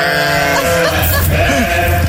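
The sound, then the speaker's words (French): Ewes bleating together in a loud, continuous chorus of overlapping, wavering calls, with no pause throughout. “C'est soit des vrais brebis, soit il a les meilleurs potes du monde.”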